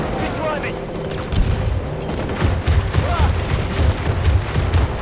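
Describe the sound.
Gunfire and booming blasts ring out in a video game battle against American forces. Rapid bursts and heavy thuds grow denser after the first second, with a player's voice heard over the fighting.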